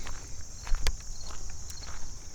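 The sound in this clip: Footsteps of someone walking outdoors near a creek, a few soft irregular steps with one sharper scuff, over a steady high-pitched hum.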